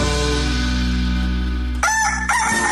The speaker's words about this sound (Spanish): El gallo.